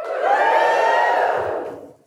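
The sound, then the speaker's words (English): A live audience at an Ad Week event cheers a loud group woohoo, many voices joined in one sustained shout that holds for about a second and a half, then fades away. “Actually, can I get a woohoo from the live audience?”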